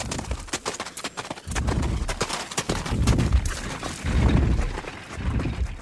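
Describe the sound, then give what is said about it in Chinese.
Galloping horses pulling a carriage, with many rapid, loud clip-clop hoofbeats in a driving, uneven rhythm and a rattling, clattering texture throughout. “骏马以最快的速度奔跑着”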